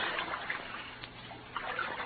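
Water swishes and laps softly around a canoe gliding along, a low, steady wash with a few brief splashes rising out of it, no voices over it.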